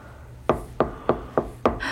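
Five knocks on a door, fairly quick and evenly spaced, with a dull wooden tone at moderate loudness and no talk.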